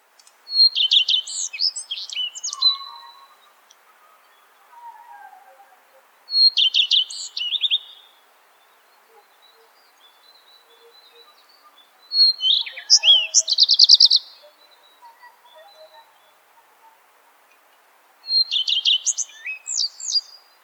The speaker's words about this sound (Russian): Горехвостка.